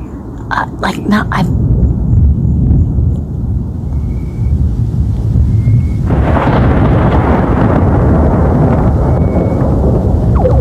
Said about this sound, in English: but I've been outside for like 15 minutes and the thunder sounds bizarre.